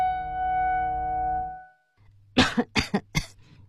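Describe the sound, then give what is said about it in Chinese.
Three sharp coughs in a recording studio from a host with a slight allergy, loud dry bursts in quick succession over a low hum, coming after a sustained musical tone that fades out; no talk. “这几声咳嗽没有剪辑掉。”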